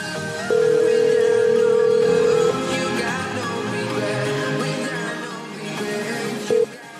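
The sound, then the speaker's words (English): Telephone ringtone heard while placing a call: one long, steady mid-pitched tone lasting about two seconds, then a brief blip of the same tone near the end, over a busy, continuous background sound. “check the ringtone for me.”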